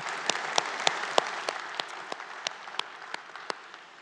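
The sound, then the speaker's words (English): Applause from a church audience during a Sunday morning worship service: many sharp, distinct claps patter steadily at moderate loudness for the whole stretch, with no voices over them. “For those of you who are in the room, would you please give our online television audience a big hand?”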